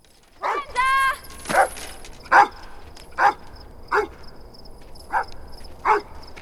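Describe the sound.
A dog barks at night in a series of about eight sharp barks at a fairly even pace, with a drawn-out whining note among the early ones.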